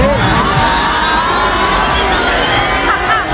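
A concert audience in Argentina boos and shouts at the performer, a dense, loud crowd roar that holds steadily for the whole stretch.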